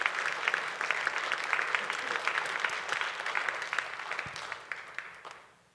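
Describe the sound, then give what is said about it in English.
A church audience applauds at a Sunday service to welcome the bishop: dense, steady clapping that holds level for several seconds, then thins out and fades toward the end. “Put your hands together, and let's welcome our bishop, Bishop Greg Amos, with us today.”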